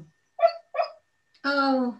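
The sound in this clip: A dog woofing in its sleep while dreaming: two brief, muffled woofs, then a longer, lower drawn-out vocal sound after a short pause.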